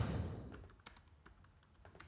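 Typing on a computer keyboard: faint, irregular key clicks in quick succession, with no voices.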